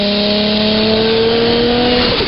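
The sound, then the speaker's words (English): A car engine revs hard while driving, a loud continuous roar with a strong steady whine that holds for the whole clip and shifts slightly near the end. “What kind of car are you driving there, Bobby? Because that is scaring the fuck out of me, man.”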